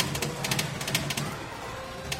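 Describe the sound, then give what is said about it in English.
Rapid mechanical clattering from a 1940s anti-aircraft machine gun arcade game firing, a coin-operated wartime shooting game. Quick clicking bursts repeat in an uneven rhythm over a steady, moderately loud mechanical rumble. “That's the sound of an anti-aircraft machine gun game from the 1940s.”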